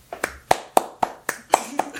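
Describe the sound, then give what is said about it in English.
Hand clapping, a steady, evenly spaced series of sharp, crisp claps at a regular quick pace, each strike distinct with near silence between, like one pair of hands rather than a crowd. “He deserves a round of applause.”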